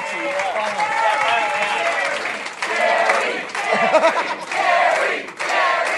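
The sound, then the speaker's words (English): Applause and cheering from a comedy audience welcoming a comedian to the stage. The clapping is loud and sustained, with whoops and shouts rising over it. “Give it up for Gareth Reynolds!”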